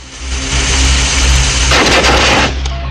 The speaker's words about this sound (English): It's a generator.